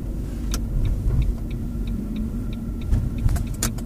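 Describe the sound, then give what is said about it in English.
A car drives off along the road, producing a steady low engine rumble with road and tire noise that holds at a moderate level, with no talk. “Okay, should we go for a little drive and see what it does? Definitely. So, off we go.”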